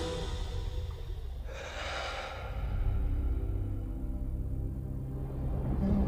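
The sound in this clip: A single deep, breathy rush of breath, loud for about a second, over a continuous low rumble that carries on afterward.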